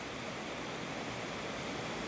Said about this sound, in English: there's a weir, which is carrying the water a bit further down the valley. And to the right, the water is extremely calm indeed before it rushes over the apex of the weir.